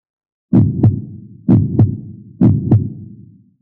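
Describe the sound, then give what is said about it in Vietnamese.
A heart beats three times in a steady rhythm. Each beat is a deep lub-dub pair: a strong thump, then a softer second knock with a brief resonant tail. “Tiếng tim đập.”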